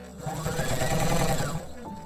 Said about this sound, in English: She folds up the new hem and goes back to the sewing machine, fixing the new shorter length in place with a straight stitch.